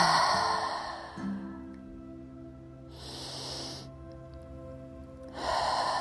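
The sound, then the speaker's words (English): Cleansing breaths drawn in through the nostrils and exhaled come as three soft, airy rushes, evenly spaced over a quiet, steady musical drone. “I invite you to take 3 cleansing breaths with me. Inhaling through the nostrils and exhaling.”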